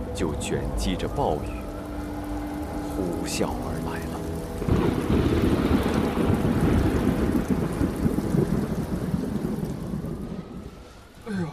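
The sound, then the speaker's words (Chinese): A typhoon's heavy downpour in Yuhang with low thunder rumbling beneath. The rain roars steadily, swells louder partway through and eases near the end. “就卷积着暴雨，呼啸而来了”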